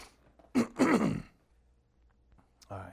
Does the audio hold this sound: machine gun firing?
no